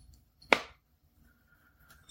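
A Samsung protective phone case flips shut with one sharp, quick snap, followed by near silence.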